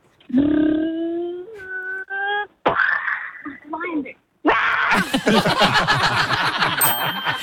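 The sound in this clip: A six-year-old boy vocally imitates a lion caught in a car crash, first with a sustained growling roar and a few shorter vocal bursts, then with a long, rasping, noisy outburst that runs to the end.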